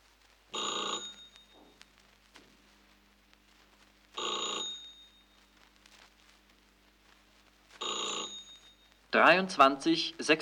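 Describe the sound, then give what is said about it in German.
An old-style telephone bell rings for an incoming long-distance call from Warsaw. It sounds in three separate bursts at an even, unhurried pace, each a bright metallic trill with quiet gaps between. “Leonard ruft Konrad wegen des Termins an.”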